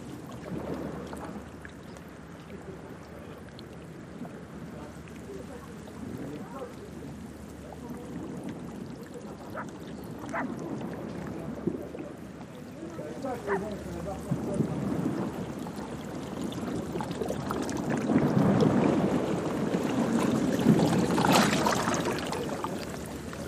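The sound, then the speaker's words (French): Sea waves hitting a wall: a continuous churning wash of water with scattered sharp splashes and knocks, growing louder toward the end. “t'as la mer qui tape sur le mur”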